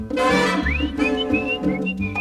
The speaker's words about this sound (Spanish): Y yo seguía con mi chiflido,